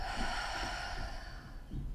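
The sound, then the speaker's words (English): A deep breath drawn in and let out during a guided relaxation exercise: a steady, airy hiss of breathing that holds fairly even throughout, with no talk. “can you please close your eyes and take a deep breath in and out,”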